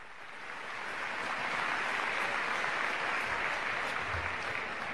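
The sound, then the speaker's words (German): Audience applause for the castellers group La Colla Castellera de Vilafranca del Penedès after they raise a 3 de 8 human tower: a thick wash of clapping that swells in the first moment, then stays broad and steady to the end. “Un aplauso para ellos.”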